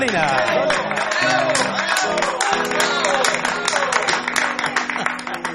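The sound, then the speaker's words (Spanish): A studio audience cheers and applauds in a steady, loud wash of clapping that holds throughout with little change in level. “Que fervoroso el público.”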